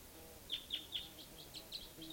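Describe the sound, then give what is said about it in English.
Faint bird calls sound late in the evening, around 8 o'clock, alongside calling decoy birds: a steady series of short, high chirps repeating at an even pace over a quiet background. “there's a type 2 bird coming in. There's also a type 4 bird down here. And the decoys are calling.”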